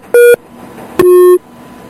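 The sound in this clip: Two electronic beeps form a telephone disconnection tone: a short higher-pitched tone, then a longer, slightly lower one, both loud and clean against near silence.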